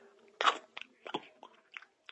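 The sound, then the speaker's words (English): Someone bites into an Italian sandwich with saucy chopped heirloom tomatoes and basil: one sharp crunch, then a few softer chewing crunches, quiet and without talk. “he's chosen an Italian sandwich with saucy chopped heirloom tomatoes, saffron all eye basil, and bean salad from Blue Apron. All right? Wish me luck. Here I go.”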